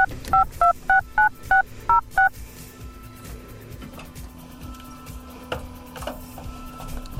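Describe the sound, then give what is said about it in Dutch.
Touch-tone DTMF beeps of a telephone number being dialed, a quick evenly spaced run of short two-tone keypresses, then a low steady hum with faint clicks. “En de nummer wordt gedraaid.”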